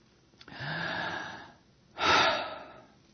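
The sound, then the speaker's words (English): A deep breath with no talk: a long, drawn-in inhale, then after a short pause a stronger, shorter exhale. “Deep breath.”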